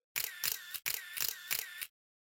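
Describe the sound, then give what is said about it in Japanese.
Camera shutter firing as photos are taken: two runs of rapid mechanical clicks in quick succession, crisp and fairly loud, then silence. “みんな、写真撮ってあげて。”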